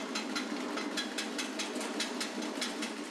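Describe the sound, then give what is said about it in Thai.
A motorized kaffir lime peeling machine runs with a steady mechanical hum and a fast, regular train of ticking pulses at an even rhythm, moderately loud throughout. “ส่วนผลผลิตนะครับที่เป็นลูกนะครับมันจะเกิดพอเราเปิดสลับตรงใบบานพับตัวนี้ขึ้นมาเนี่ยมอเตอร์มันเกิดการเคลื่อนที่นะครับผลเนี่ยมันก็จะดันออกมาอย่างนี้นะครับดันออกมาช่องรูนี้”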